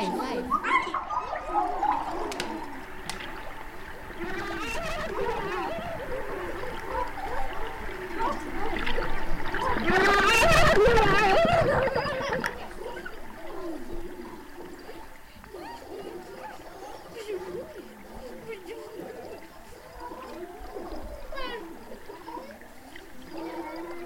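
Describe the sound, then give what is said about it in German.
Speech recorded underwater, mixed in a radio studio, comes through as muffled, gurgling, bubbling voice sounds throughout, swelling louder in the middle before settling back. “Oh, dann hören wir uns jetzt einfach mal an, wie sich Sprache unter Wasser anhört.”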